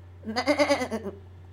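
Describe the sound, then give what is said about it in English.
A goat bleats once, a wavering, pulsing cry that lasts about a second and is heard alone. “Zalada bleated.”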